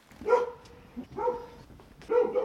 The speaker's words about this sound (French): c'est le chien qui s'énerve. Il peut être agressif.